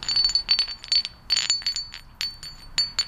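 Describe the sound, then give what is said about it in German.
Flint stones struck against each other make many quick, bright clinks in an irregular rhythm, each leaving a short, high, silvery ring, some taps louder than others. “Manche, die klingen kaum, wenn man sie aneinander schlägt. Oder andere wiederum. Hier habe ich ein Stück gefunden.”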